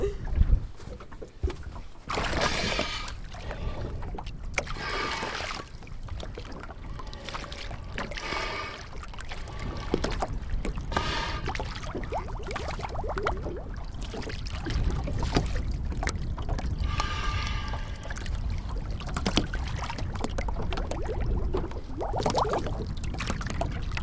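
A boat moves on the water toward a lakeshore during a fishing outing, with a continuous washing rumble, wind buffeting and intermittent splashy surges throughout.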